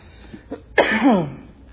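A single dry throat cough, a sharp harsh burst trailing into a short rasping voiced tail, after a couple of faint small throat sounds. No talk is heard.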